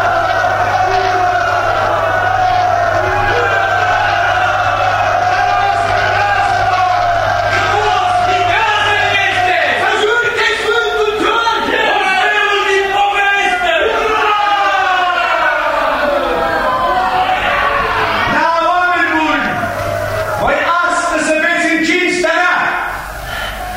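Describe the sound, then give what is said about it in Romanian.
A crowd cheers a returning despot in a historical drama reading, a loud sustained mass of shouting and whooping voices that carries unbroken for over twenty seconds above a low steady hum. “Mulțimea îl întâmpină pe despot cu urare.”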